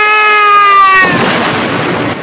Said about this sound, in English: The spaceship shoots the base of a column, and it falls down, crushing Fidget.